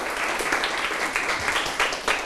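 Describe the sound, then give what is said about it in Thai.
Students clap for a classmate in a classroom, a steady patter of many hands that stays even and moderately loud across the whole stretch, with no talking over it. “ถูกต้องครับปรบมือเพื่อนหน่อยครับ”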